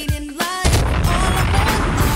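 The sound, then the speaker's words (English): A bomb explosion sound effect bursts in after a short tonal lead-in, then rolls on as a dense, loud, noisy roar that holds steady to the end. “Bombs!”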